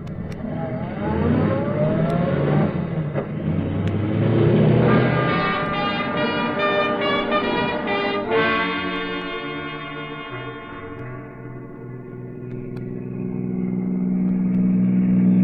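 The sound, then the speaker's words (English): Taxi cab driving, its engine droning and climbing steadily in pitch as it accelerates, then dropping to a lower, steadier hum before swelling again near the end. “Taxi! Taxi! Look, son, I want you to drive me out towards Arlington Park.”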